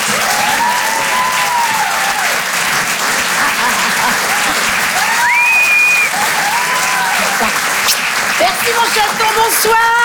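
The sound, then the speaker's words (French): Applause and cheering from the audience at a comedy show, a steady wash of many clapping hands with voices and shouts rising above it throughout. “Faites du bruit s'il vous plaît, merci d'encourager Karine Dubernet.”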